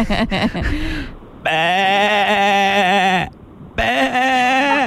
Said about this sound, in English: It is a slightly unhinged sheep.